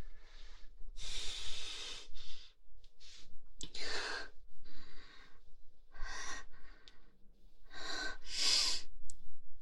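Deep breathing and sniffing from a person inhaling close to someone's feet: many breathy, noisy inhales and sniffs in an uneven rhythm, with short pauses between, and no talk.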